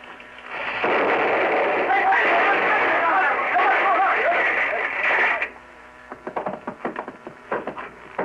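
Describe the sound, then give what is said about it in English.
A muzzle-loading gun fired out a window explodes with a long, roaring blast lasting several seconds, then cuts off; voices follow. “I'm using now what is called a ramrod. Uh-huh. Ramming the powder and shot in. Just a second. There. Now it's ready. They must use watchmaker's tools, microscopic precision. I'll fire it out the window.”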